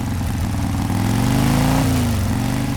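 Motorcycle engine running steadily at speed while ridden, a loud continuous drone with a slight pitch shift partway through and no voices.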